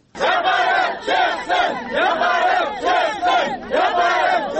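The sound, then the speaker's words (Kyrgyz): Over five hundred traders protest outside the government house in Kyrgyzstan, chanting loudly in unison against cash register requirements. Their chant comes as repeated shouted phrases in a steady rhythm, with short dips between bursts. “Өкмөт үйүнүн алдына чогулган 500 ашык соодагер ККМге ар кандай себептерден улам каршы болууда.”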